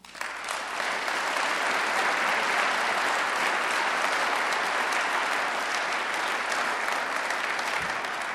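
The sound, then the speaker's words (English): An audience at an Alcoholics Anonymous meeting applauds to welcome a guest speaker, with dense, steady clapping that builds quickly and holds for about eight seconds. “please join me in extending a warm welcome to our special guest tonight, who is Charlie C. from the Pacific Group in Los Angeles.”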